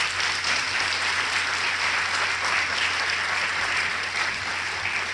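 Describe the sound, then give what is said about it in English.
Thick, sustained audience applause greeting a university executive vice chancellor at a UC Santa Barbara event. A continuous wash of many hands clapping holds at a steady, loud level throughout. “Let's give him a big hand.”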